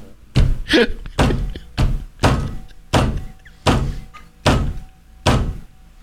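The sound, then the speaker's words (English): A fist crushes a dirt bike rider's helmet in a series of heavy, dull thuds. The loud, evenly spaced blows come alone, and the first two fall close together. “You hear that sound? That's the sound of a dirt bike rider's helmet being crushed by a dom dom fist.”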